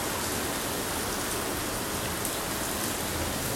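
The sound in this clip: Steady rain falls in a continuous, even hiss of countless drops spread across the whole range, unchanging from start to finish with no voices.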